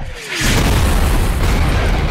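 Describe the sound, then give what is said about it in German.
A loud, sustained booming rumble, blamed on a car's spare tire coming loose, bursts in after a brief falling whine and then fills the rest of the moment. “Hast du das gehört? Das Reserverad hat sich gelöst.”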